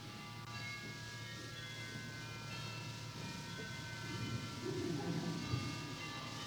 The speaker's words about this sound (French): Ils n'ont pas bientôt fini de nous casser les oreilles avec leurs cloches.